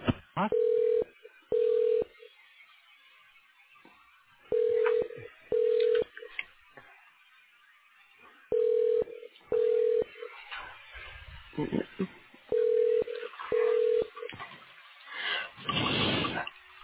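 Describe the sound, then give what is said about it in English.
Call-transfer tones on a hospital phone line: four pairs of short, steady mid-pitched beeps repeat at regular intervals, with quieter line noise and brief muffled sounds between them. “Please wait while I transfer your call.”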